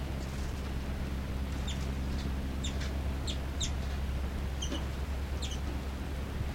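Short, high bird chirps repeat many times in quick, uneven bursts over a steady low hum.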